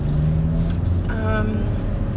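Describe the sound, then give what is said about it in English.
A car drives in traffic, with a continuous low rumble of engine and road noise that stays moderately loud and steady throughout, with no distinct separate events. “I'm driving. This lane suddenly ended. So, let me try not to get hit.”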